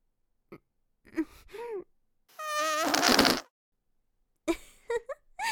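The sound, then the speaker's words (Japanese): A loud fart of about a second, buzzy and sputtering, set between short breathy vocal sounds before and after it. “いい音のが出ちゃった。ごめんね。お尻におっきめのガスを感じたから、思わず出しちゃった。”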